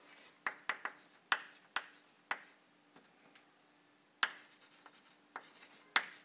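Handwriting on a surface during a lecture on antenna models, heard as many irregular sharp taps and short scratchy strokes separated by quiet gaps, fairly faint.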